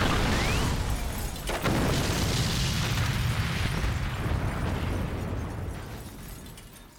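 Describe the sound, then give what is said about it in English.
A huge explosion in an action film scene shot just before dawn: a loud, broad roaring blast holds for several seconds, then slowly fades. “and that's what's about to be blown to pieces and destroyed.”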